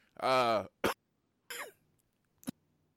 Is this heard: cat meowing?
no